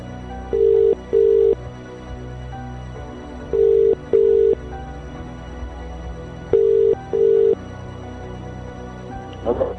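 A telephone ringing after a call is dialled: three ring cycles, each a pair of short, steady, even-pitched tones, separated by quieter gaps of faint background hum.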